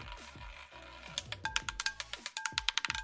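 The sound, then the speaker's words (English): A wheel spins with many rapid, crisp ticking clicks that keep a quick, steady rhythm and grow denser toward the end. “Here we go. We're spinning the wheel.”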